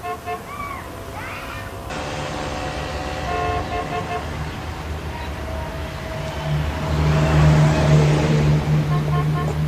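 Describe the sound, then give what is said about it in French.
A car sets off and drives through the streets of Pedralbes, its engine hum building into a steady, louder low drone in the second half. “On démarre, accrochez vos ceintures.”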